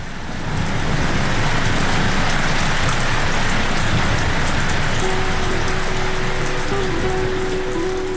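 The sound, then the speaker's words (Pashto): Steady rain falls in an even, dense hiss that holds at a constant level from start to finish, with no voices. “زه د بارانه نغمو ته ناستیم، زه د بارانه تناستیم.”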